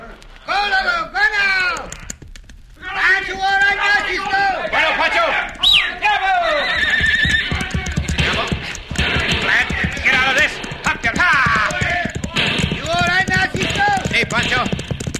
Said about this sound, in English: Down as fast as we can at full gallop.